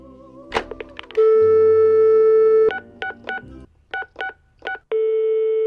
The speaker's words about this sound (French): Un petit jingle